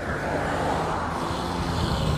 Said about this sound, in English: a lot of loud goddamn cars around, I could tell you that.